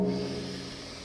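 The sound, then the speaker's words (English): A deep inhale drawn through the nose, a steady airy hiss that slowly tapers, with a soft sustained tone underneath. “And together we'll take a really deep inhale through the nose.”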